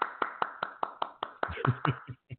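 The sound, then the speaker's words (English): Hand clapping from one person, many sharp claps in a quick, even rhythm that loosens slightly toward the end. No one talks over it. “Can I clap? I'm going to clap.”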